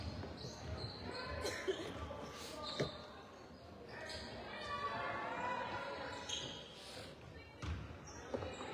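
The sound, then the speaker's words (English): A basketball dribbled on the court during a Lady Eagles versus Unalaska game: many repeated thuds in a steady rhythm under a commentator's voice, with shoe shuffles and crowd noise around them. “At the wing, gonna dribble up top and then to the other wing”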